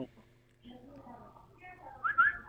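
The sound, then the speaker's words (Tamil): A person whistles an imitation of a koel bird's call: a faint, low murmur, then a thin rising whistled phrase that grows brighter and louder toward the end. “குயில் மாதிரி பாடுறீங்களா?”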